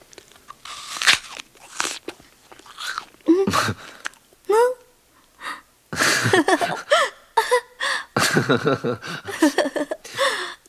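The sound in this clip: Crisp crunching bites and chewing of a fruit, a few loud crunches scattered between stretches of talking.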